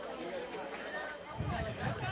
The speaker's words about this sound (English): And as we wait for the crowd to get settled in, it's a sea of green on my left and a sea of red on my right. So there should be plenty of energy in the crowd here today